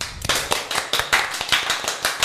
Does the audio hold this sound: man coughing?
no